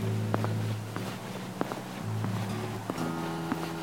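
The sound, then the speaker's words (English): Medic boots strike pavement on a walk, a steady series of crisp, fairly quiet footfalls over a low, constant hum. “You can hear my medic boots on the pavement pretty clearly as I'm walking along here.”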